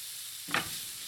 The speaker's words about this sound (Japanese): 同じフライパンにマッシュルームを入れて残りのバターを入れます。 マッシュルームは強火で一気に炒めていきます。水分が出てきますので水分を飛ばすようにして炒めていくといいですね。